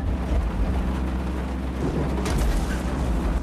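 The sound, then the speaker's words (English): Heavy rain pounds the windshield of a small plane flying through a night thunderstorm with lightning, a dense, steady roar of downpour over a deep continuous rumble that swells briefly partway through. “Lightning flashes in the night sky. Rain pounds the windshield.”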